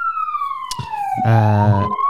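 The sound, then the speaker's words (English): An emergency vehicle siren passes nearby, its loud wail gliding steadily downward in pitch, joined after about a second by a deep, buzzing horn blast that holds to the end. “the sirens are always going off near your place”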